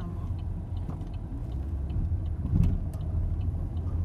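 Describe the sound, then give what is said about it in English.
Car being driven through a U-turn after a missed turn, a steady low engine and road rumble that continues without a break and swells slightly near the middle. “I'm making a U-turn because I'm getting lost while we're driving.”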